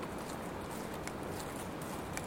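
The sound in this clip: Horses' hooves clip-clop faintly and steadily as riders travel on, under a constant wash of broad noise.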